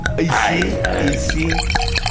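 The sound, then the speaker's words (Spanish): Dom Pérignon sparkling wine is poured into glasses for a toast, with dripping and fizzing liquid sounds over a continuous busy background. “Va, ahí están las copas. Todos traemos las espumosas, las bubbles, las burbujas.”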